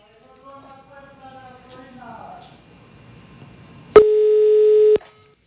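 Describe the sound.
Voices talk first, then a single steady telephone ringing tone sounds for about one second while a call is being placed, loud and alone.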